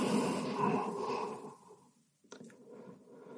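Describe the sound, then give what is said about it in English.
Deep breathing during a yoga session: a long, steady breath fades over about two seconds, then a soft knock breaks a short quiet and gentler breathing noise follows. “Take a few breaths.”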